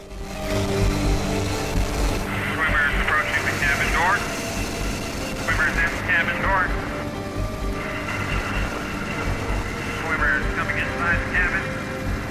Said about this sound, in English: Now with the rescued man in tow, the helicopter flies off.